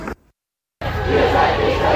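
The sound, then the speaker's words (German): Crowd noise from a protest blockade in the street, heading toward the town and now facing a police blockade; a short burst is followed by a pause, then a dense, steady roar of many voices. “Ihr hört hier im Hintergrund die Blockade, die sich aus Hochheim gelöst hat Richtung sozusagen Stadt, Richtung Wartburgstraße.”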